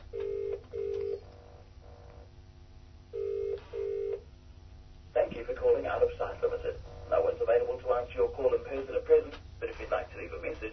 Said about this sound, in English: Dial. Home. 3-4. Home is calling, and we'll just leave a message and see what happens.